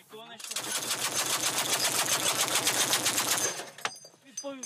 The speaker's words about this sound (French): Après les tirs ukrainiens, la course dans les tranchées pour échapper aux projectiles de riposte.